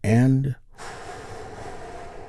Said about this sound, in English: We do that by taking a big, deep, healing breath with me right now. Here we go.